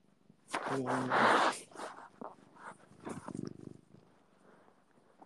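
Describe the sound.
A cat purrs in low, rumbling bursts: a louder, noisier stretch early on, then softer, uneven purring that fades in and out.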